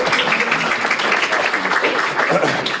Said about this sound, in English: Chuck, please, and a round of applause.